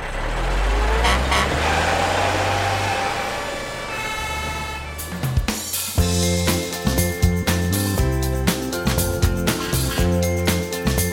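A heavy truck engine rumbles and revs loudly as the vehicle turns around and drives back, lasting about five seconds before music with sharp percussive hits takes over.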